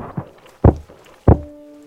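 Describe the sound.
Three heavy thuds as someone forces open a locked door. The second and third blows are the loudest, and the last leaves a brief ringing resonance.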